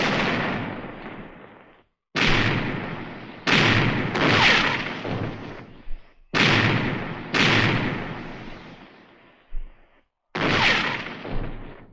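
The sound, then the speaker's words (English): A ship's cannons fire a broadside in a naval battle, heavy booming blasts in a rapid irregular series with some overlapping, each loud and followed by a rumbling decay, with short silent gaps between volleys. “Give them another broadside. Pound them, lads. Pound them.”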